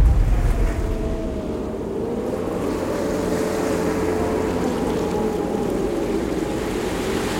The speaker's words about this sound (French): ce matin, le vent souffle très fort sur le sud de l'océan Indien